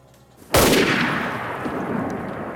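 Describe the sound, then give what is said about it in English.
A single rifle shot cracks out sharply, then a long rumbling decay fades slowly over the following two seconds. “A bullet from Mike's rifle puts Melquiades on the ground.”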